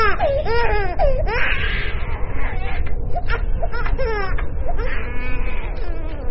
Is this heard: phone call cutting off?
no